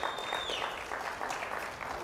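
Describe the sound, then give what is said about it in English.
Congregation clapping during a church service: a dense, steady wash of many hands applauding together, loud and continuous for the whole clip. “that's a good time to give the Lord a good clap offering right there where you're at.”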